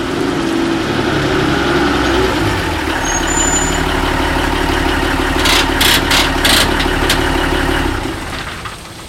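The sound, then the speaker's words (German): A delivery van engine reverses toward a loading dock, giving a steady, loud, low idling rumble with brief high rattling bursts near the end before the engine cuts out and the sound drops away. “Altmaier fuhr den Lieferwagen rückwärts an die Laderampe.”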